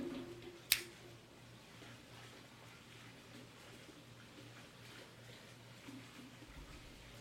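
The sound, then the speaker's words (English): A single crisp snip as a Drew Estate Undercrown Shade cigar is cut, one sharp click near the start, followed by faint steady hiss in an otherwise quiet stretch. “Now, let's give it a cut and test out the cold draw.”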